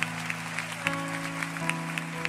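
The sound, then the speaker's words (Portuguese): A church audience clapping in steady rhythm along with worship music, about nine evenly spaced claps over sustained chords that shift pitch partway through. “Pode dar mais um aplauso.”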